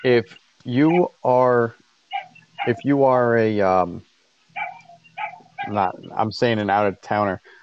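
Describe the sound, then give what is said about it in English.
Dogs bark, yip and whimper in a series of sharp, pitched bursts, with a person shouting at them in between. “Let me yell at my dogs. Yeah. Hey! Yep. Shut up! My dogs are going crazy because their mom left.”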